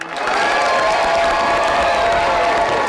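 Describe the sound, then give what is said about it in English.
Friends and family cheering and applauding at a GED graduation ceremony at Wichita State's Hughes Metroplex as graduates walk the stage, a loud, steady wash of clapping with sustained whoops throughout. “Friends and family cheered as graduates walked the stage at Wichita State's Hughes Metroplex.”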